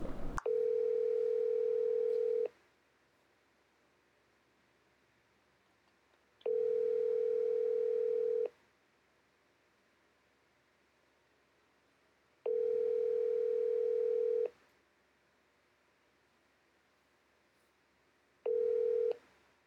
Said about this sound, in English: Is that enough rings? I, uh, that was a lot of rings. I thought I was going to go to voicemail.